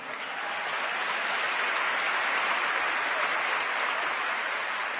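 An audience claps at a live program, filling the whole stretch with dense, loud, continuous applause that holds an even level throughout.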